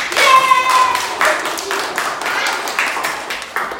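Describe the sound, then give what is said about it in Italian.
An audience applauds children who have just sung a song. Many hands clap in a quick, irregular patter that starts strongest and continues at a fairly even level throughout. “Bravi! Fatemi un applauso!”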